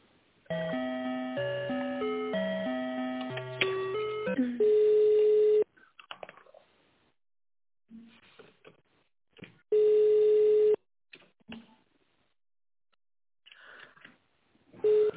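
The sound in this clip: Telephone line tones during a call transfer: a stepped electronic melody, then two long steady beeps about four seconds apart, with brief scraps of voice between them.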